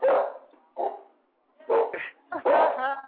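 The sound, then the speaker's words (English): A dog in a green room lets out several sharp barks and higher yips, arriving in uneven bursts with brief silent gaps between them. “Dog is acting silly in the green room tonight.”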